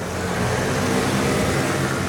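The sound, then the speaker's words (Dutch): Street traffic with cars at night on a city-centre street, the Meent, where cars cruise noisily: a dense, steady engine rumble and road roar, continuous and fairly loud, with no voices. “Veel verkeer op straat, op de meent.”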